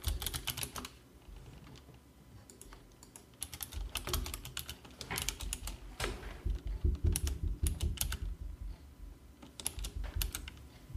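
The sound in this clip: Typing a name on a computer keyboard: many quick, light key clicks in uneven bursts with brief pauses, growing denser toward the end, with no voices.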